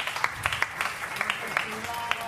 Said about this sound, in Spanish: Dê um aplauso a Day e a Gabriel que han hecho esta, por favor.